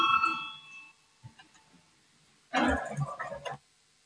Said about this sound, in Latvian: Lūdzu zvanu.